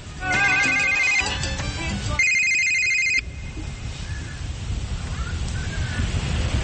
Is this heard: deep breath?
no